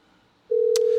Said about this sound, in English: Dialed the number wrong. Let's see who this is. Okay. They're not going to answer.